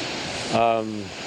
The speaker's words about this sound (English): When the water hits, it rolls in under and starts cutting back the softer shales and sandstones which are underneath the harder lip.